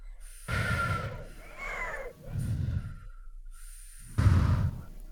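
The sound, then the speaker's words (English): A person breathes in through a straw as part of a mindful breathing technique, making a few forceful, hissing, whooshy breaths separated by short pauses, with no talk. “I use a straw breath sometimes so you can really hear me”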